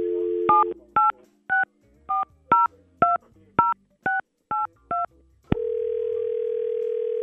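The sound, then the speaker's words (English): Telephone dialing starts with a brief dial tone, then about ten crisp keypad beeps at a steady, even pace, each short and separate. A long, steady tone follows until the end. “All right, let's give her a call.”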